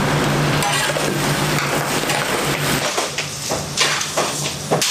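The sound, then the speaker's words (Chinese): Loud, steady sizzling and hissing as meat is stir-fried directly in caramelized sugar in a wok, without added water. Toward the end, a few irregular clanks and scrapes of stirring break through the hiss. “炒糖色居然不加热水，而是直接下肉翻炒”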